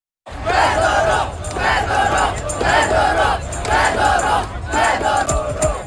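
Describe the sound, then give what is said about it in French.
Thousands of protesters in Ukrainian city streets chant against the dismissal of Defence Minister Mykhailo Fedorov. After a brief silence, a loud crowd shouts in unison in about five rhythmic, evenly spaced bursts. “Des milliers de manifestants, vous les entendez, sont descendus dans les rues de plusieurs grandes villes du pays pour protester contre son limogeage.”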